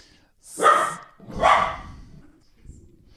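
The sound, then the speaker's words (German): Small dog barking at a tangle of cables: two loud, sharp barks in quick succession, followed by a much fainter third sound. “Chili verbellt gerade Kabelsalat.”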